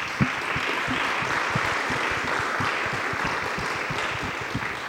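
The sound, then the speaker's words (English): An audience applauds to welcome guest speakers to an evening design panel. The clapping is steady and dense, with many hands sounding together at an even level throughout. “I'll ask you if you could join me, please, in welcoming our guest speakers this evening.”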